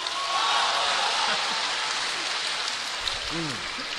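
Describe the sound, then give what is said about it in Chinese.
Applause from a live audience, a steady, dense clatter that runs throughout, with a voice briefly heard over it near the end. “只要咱们今天现场的朋友， 嗯， 鼓掌的话， 怎么样？ 发财一千万。”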